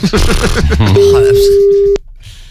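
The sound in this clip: A single telephone ringback tone, a steady mid-pitched tone lasting about a second, sounds under continuous talk and then cuts off abruptly.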